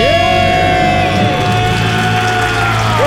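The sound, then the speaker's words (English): A group of people scream, shout and cheer to celebrate becoming debt free, a loud, continuous burst of whoops and high voices that keeps going throughout. “Let's hear a debt-free scream. Okay, 3, 2, 1, we're debt free!”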